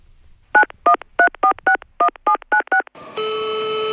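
Telephone keypad tones as a nine-digit number is dialed: nine short, evenly spaced beeps, then a steady, loud multi-pitched line tone that holds to the end.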